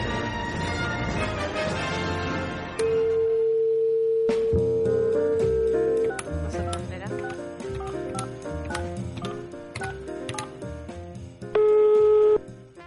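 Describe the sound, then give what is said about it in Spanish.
A telephone call rings out: two long, steady ringback tones, one lasting about three seconds and a shorter one near the end. Background music with keyboard notes and percussive clicks plays throughout. “estamos llamando si está Joe, si está, despierto”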